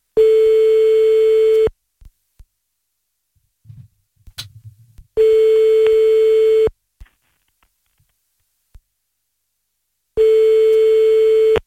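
A telephone ringback tone sounds while a call is placed to France: three long, steady, mid-pitched tones, each lasting under two seconds, separated by silent gaps with faint small noises between them.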